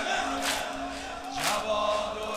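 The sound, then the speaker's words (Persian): A crowd of young people chants together at a religious gathering in praise of Imam Jawad, a dense mass of voices over a sustained drone, swelling twice in loud surges. “این صدای این جمعیت جوان نیست، ماشاءالله.”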